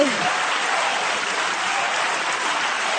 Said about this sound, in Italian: Tu fai l'applauso a loro? No, a te te lo facevo.